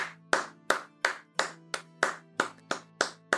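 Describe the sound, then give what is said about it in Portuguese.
Hand clapping by one person, about ten sharp, evenly spaced claps in a steady rhythm, loud and alone with no talk. “deixa eu só bater palma aqui, ó.”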